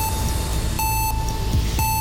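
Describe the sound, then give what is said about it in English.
Electronic timer beeping: a steady high tone with a few brighter, evenly spaced beeps, heard over a continuous low rumble. “Here's the timer.”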